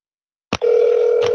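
A telephone line ringing out on a call: a brief click, then a steady, unbroken electronic tone with a second faint click near the end.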